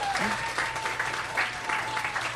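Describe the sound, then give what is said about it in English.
Audience applause, a round of clapping that stays steady and fairly loud throughout, with dense overlapping claps and no break. “Yeah, round of applause.”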